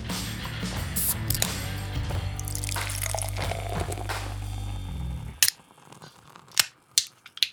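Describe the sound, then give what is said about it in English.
Beer is poured into a glass as a steady, dense fizzing rush with a low undertone. It stops abruptly, and a few sharp clicks and taps follow in the quiet. “You hear that? That's the sound of pouring liquid celebration.”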